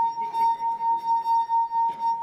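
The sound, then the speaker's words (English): A wine glass sings as its rim is rubbed, giving a steady, clear ringing tone with faint overtones and a gentle, regular pulsing swell in loudness throughout. No one speaks. “You alternately get slipping, sticking, and that causes a vibration. And so if I do that with a wine glass, who's tried this one?”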